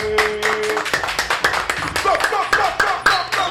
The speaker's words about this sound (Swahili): Kwa heshima tungesimama tupige makofi kwa ajili ya Arsenal.